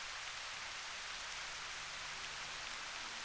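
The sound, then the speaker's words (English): Steady rain falling, a dense, even hiss of countless drops that holds constant throughout with no pauses, voices or other sounds. “And I want you to listen to the sound of the rain”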